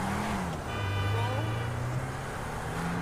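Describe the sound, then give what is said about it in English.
A hatchback car drives in the video game Grand Theft Auto V on Xbox One, giving a continuous low engine drone that dips in pitch early on and then holds fairly steady, with a faint higher whine above it. “This is a nice hatchback. I think I'm gonna go put some insurance on this. I'm gonna drive North Carolina style.”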